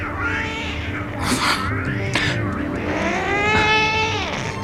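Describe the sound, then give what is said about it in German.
Two tomcats fighting and yowling: continuous loud, wavering cries that swell and waver in pitch, broken by a couple of sharp, noisy bursts. “Zwei Kater können dich erschrecken”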